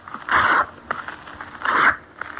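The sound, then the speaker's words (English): Strips of paper are torn by hand in two short, bright ripping bursts with a light tick between them, fairly quiet and with no talk. “Now, I'll tear three strips of paper.”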